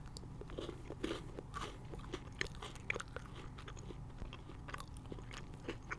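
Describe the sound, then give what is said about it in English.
Quiet biting and chewing of a segmented mint chocolate bar broken off by hand: a few sharp, crisp crunches stand out over soft, continuous chewing. “It's exactly how a Hershey's bar is. It's like it has the cutaway. I can break it off. And let me try this one part.”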